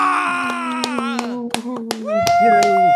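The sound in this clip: An audience claps, a few scattered sharp hand claps mixed with voices and a sustained tone rather than a full burst of applause.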